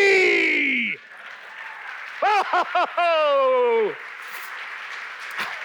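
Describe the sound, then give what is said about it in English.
An audience applauds to welcome the evening's MC, a steady, noisy clatter under a few loud whooping cheers, after a falling voiced cry at the start. “Ladies and gentlemen, please put your hands together to welcome your MC for the evening, me!”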